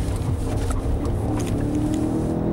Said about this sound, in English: And you just put everything you got down, 600 plus horsepower from the M5.